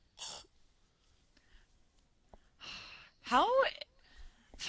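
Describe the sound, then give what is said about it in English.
Throat clearing and hacking from a congested person trying to bring up phlegm: a few short, rough bursts with a brief voiced catch, separated by quiet gaps. “Oh, I wish I could have spit that out. Oh, ew. I'm sorry. I have phlegm.”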